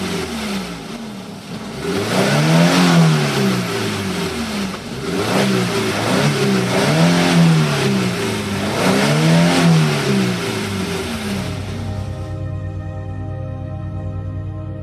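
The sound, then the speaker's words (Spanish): A car engine accelerates hard as the vehicle drives away. Its loud roar climbs in pitch in three successive surges, like gear changes, then settles into a steadier, thinner hum at the end. “La mujer cuenta que pisó el acelerador y huyó de allí.”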